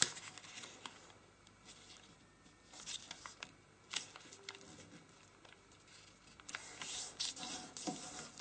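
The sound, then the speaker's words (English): Paper being folded over and along a crease makes faint, intermittent crinkling and rubbing sounds with scattered sharper crackles, quiet throughout and with no voices. “So now we're going to fold this over on the crease and rotate, and then bring this edge to the central crease.”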